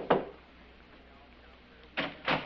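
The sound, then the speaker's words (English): Faint knocks at a door: one knock, a pause, then two more in quick succession, over a quiet background. “Then there was a knock at the door.”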